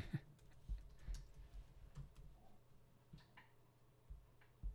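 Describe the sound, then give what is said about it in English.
Typing on a computer keyboard: faint, irregular key taps and clicks, some in quick bursts, over a low steady hum. “I just typed in white rhino, see if this guy pops up.”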